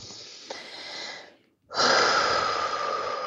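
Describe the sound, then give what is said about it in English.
A deep breath: a long, airy inhale, a brief silent pause, then a louder, sustained exhale that trails off slowly, with no talking. “take a nice deep breath.”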